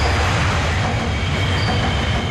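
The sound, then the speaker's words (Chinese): A Wuhan Metro Line 1 train rushes overhead on the track beneath the Yangtze River Second Bridge approach at Huangpu Street. It makes a loud, steady rail rumble with rattling wheel noise throughout, and no voices are heard. “在不足一公里外的黄浦大街长江二桥引桥下，地铁一号线列车从头顶呼啸而过”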